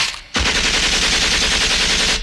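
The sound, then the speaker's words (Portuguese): A burst of gunfire erupts suddenly after a brief hush and keeps going as rapid, continuous machine-gun fire. It stays loud and dense right to the end, with no talking. “Isso é uma rajada de tiros. E hoje em dia tem outros armamentos bem pior até que esse aí, né?”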